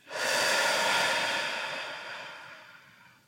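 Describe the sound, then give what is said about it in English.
One long, airy breath during a slow relaxation exercise starts loud and gradually fades over about three seconds, heard alone with no talk. “Inhale again. And exhale again.”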